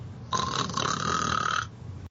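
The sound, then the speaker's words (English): A man who has fallen asleep lets out a yawn: one drawn-out voiced sigh lasting just over a second, fairly loud and breathy. It rises out of a low background rumble and then fades back into it. “He fell asleep. I think he just yawned.”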